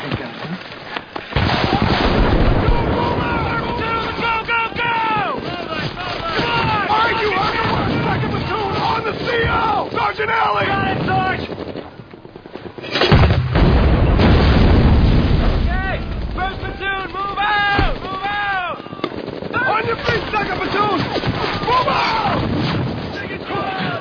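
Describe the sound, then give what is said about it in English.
Mortar and grenade launcher fire pounds a building in heavy booms and blasts, with one especially loud burst near the middle, while voices talk over the barrage throughout. “All right, I want mortars and grenade launchers on that building till it's gone.”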